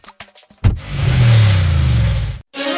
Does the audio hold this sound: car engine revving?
yes